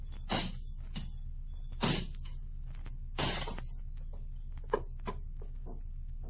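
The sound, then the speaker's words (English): Heavy blows break open the lock on an iron box. Three loud, broad impacts land roughly one and a half seconds apart, then come a sharper, smaller knock and a few faint clicks. “Oh, a box. An iron box. Sergeant, break the lock.”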